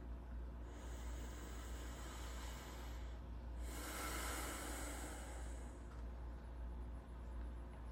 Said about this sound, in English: Take a breath with me.